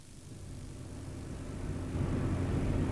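A car drives along a road that curves around a small wood toward a house's driveway, giving a faint, steady low engine rumble that swells slightly.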